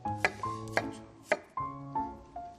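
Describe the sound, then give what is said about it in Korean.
Knife strikes slicing whole garlic cloves, several crisp faint chops in an uneven rhythm, three sharper than the rest. “통마늘을 이거는 이제 편으로 편 네, 이렇게 썰어 주십니다. 통마늘 편 썰어 주시고”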